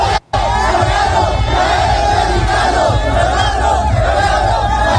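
A large crowd of football fans at a celebration chant and shout together in a loud, continuous roar with a rhythmic, unison quality. The sound breaks off briefly near the start.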